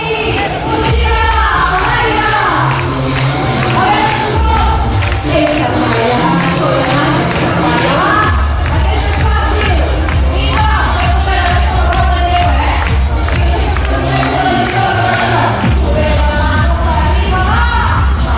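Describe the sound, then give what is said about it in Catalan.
Crowd cheering and shouting at a live show in Garrotxa, a loud, continuous roar of many voices that stays dense from start to finish. “us he portat un tall de la BDT volcànica perquè veieu com animava el públic de la Garrotxa”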